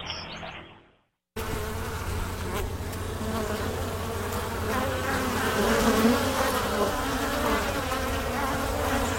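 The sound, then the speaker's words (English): Busy Italian honeybees buzz around a house in a dense, steady drone that swells slightly, after a brief quiet start. “That's the sound of very busy Italian honeybees racing around weekday listener John's house.”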